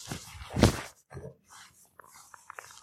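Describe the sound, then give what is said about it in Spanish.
Dogs barking: one loud, harsh bark burst near the start, followed by fainter, scattered short sounds and quiet stretches. “Y abriré la puerta, creo que ya terminó el concierto de los perritos.”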